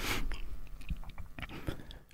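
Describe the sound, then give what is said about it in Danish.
Someone chews a meat-free dish, with irregular crunchy bites and wet mouth noises that stay faint and continuous with no voice over them. “Undskyld, at jeg taler med mad i munden”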